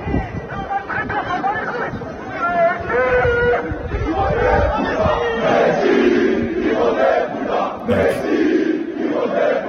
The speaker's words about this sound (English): Paris Saint-Germain at the end of the season, fans went down and protested outside the club's headquarters where they were calling him like an SOB, super loud. Listen to this.